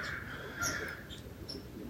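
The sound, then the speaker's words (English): Crows caw faintly while mobbing an eagle, a few brief calls over a steady background hiss, with no talk. “Perhaps the commotion with the crows”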